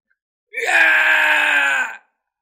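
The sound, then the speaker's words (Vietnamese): Loud screaming, voices crying out together in one sustained, high wail that lasts about one and a half seconds, standing alone between stretches of silence. “Vương Đằng cùng hư ảnh kia cùng nhau kêu to.”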